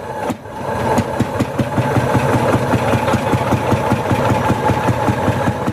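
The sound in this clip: An Ursus tractor engine runs in the Bieszczady mountains, a steady low throbbing idle with regular knocking pulses that continues evenly throughout.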